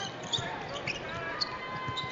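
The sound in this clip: Basketball dribbled on the court during a Santa Clara game, a steady series of dull bounces in an even rhythm under continuous commentary.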